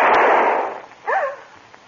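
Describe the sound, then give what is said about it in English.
A single gunshot: a sharp, loud crack at the start with a noisy tail that fades over most of a second, followed by a brief high, voice-like cry. “What in heaven's name? Who fired that shot?”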